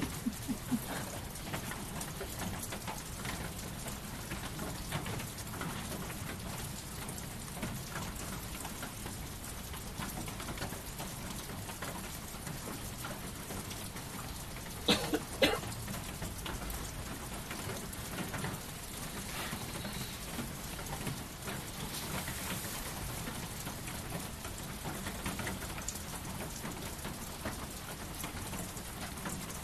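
Rain falls steadily on a sheet-metal roof with an even, faint, hissing patter throughout. A couple of slightly louder taps stand out briefly in the middle.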